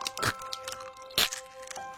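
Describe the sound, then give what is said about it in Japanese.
Hard, salty scrambled egg crunches loudly as it is chewed. Two sharp crunches stand out, with fainter crackles between them, over a steady tonal background. “ほら、すっごいガリゴリいってるし。 うん、ちょっと硬くてしょっぱいけどうまいよ。”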